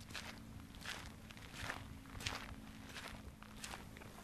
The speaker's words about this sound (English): So we're going to walk through today through the Torii Gate.